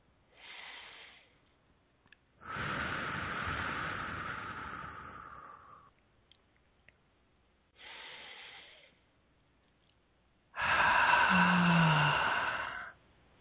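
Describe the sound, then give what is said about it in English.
Deep breathing, in through the nose and out through the mouth: two slow breath cycles, each a short airy inhale followed by a longer rushing exhale, soft and unhurried with quiet pauses between. “Let's start with a couple nice deep breaths, please. And I recommend in through the nose and out through the mouth.”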